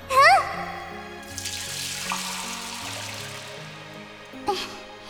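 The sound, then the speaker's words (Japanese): Water poured while washing someone's back at a hot spring makes a steady splashing hiss for several seconds over soft background music. “昔みたいにまた背中を流してあげるよ。”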